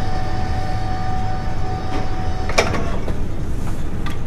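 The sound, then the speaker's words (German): A ship's winch hauls in rope metre by metre aboard an Arctic vessel. It gives a steady mechanical drone with a faint whine and a few sharp knocks near the end. “Die Winde wickelt das Seil Meter um Meter auf.”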